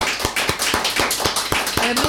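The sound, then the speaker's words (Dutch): Rhythmic hand clapping from a concert audience giving a performer one more round, a steady beat of sharp claps about four per second over a dense wash of noise. “En ik wil jullie vragen om nog één keer voor Anke te klappen.”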